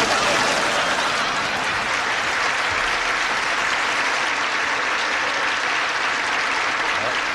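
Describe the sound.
Audience applause welcoming a guest on stage at a celebrity roast, a dense, sustained wash of clapping that stays loud and even for about seven seconds.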